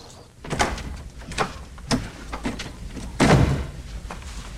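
A garden gate is shut by a man in a business suit arriving home, giving a few dull clunks and rattles, the heaviest knock coming near the end.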